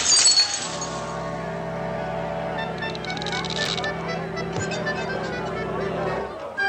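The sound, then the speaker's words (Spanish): A glass jug of rum smashes in a brief, bright crash at the start, followed by steady sustained musical tones that carry on to the end. “Y en la cara le rompió un garrafón de ron.”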